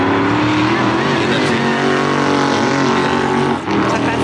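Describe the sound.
Race car engines roar at the Bathurst motor race, a loud, continuous high-revving drone that holds steady for several seconds before a brief dip near the end.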